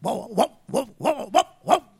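A dog gives six short, gruff barks in an uneven rhythm, each a brief loud burst separated by short gaps, with nothing else heard.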